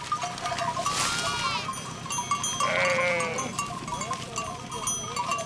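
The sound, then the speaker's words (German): A large herd of sheep bleats on farmland with a shepherd: many overlapping, wavering calls rise one after another, some higher and some lower, over a steady background murmur. “Wieder ein Schäfer, wieder eine große Herde.”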